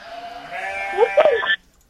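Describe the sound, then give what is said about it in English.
A person imitates a goat's bleat, giving one quavering, nasal cry of about a second and a half that wavers in pitch before cutting off into quiet. “What does the goat say?”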